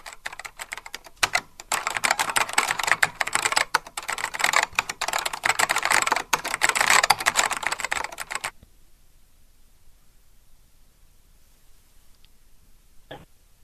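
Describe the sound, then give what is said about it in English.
Rapid typing on a computer keyboard makes a dense, continuous clatter for about eight seconds, then stops abruptly into near silence, with one faint click near the end. “Shh. Typing.”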